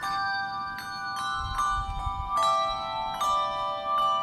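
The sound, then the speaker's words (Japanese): Handbells rung by a group, each player sounding one bell to build a melody. Bright, clear bell tones are struck one after another and ring on, overlapping into a sustained, shimmering chord. “一人が一つのベルを鳴らしながら大勢でメロディーを奏でるハンドベル”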